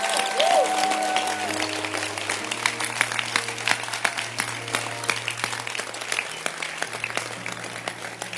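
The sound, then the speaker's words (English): A church conference audience claps their hands, a dense, continuous crackle of many hands that holds steady throughout, with a low, sustained tone beneath. “Can you clap your hands or you don't clap in this conference?”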